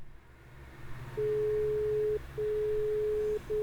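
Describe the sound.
Telephone tone on a call that goes unanswered: a steady, low-pitched electronic beep repeating in one-second pulses separated by short gaps, two full tones and the start of a third, over a faint low hum.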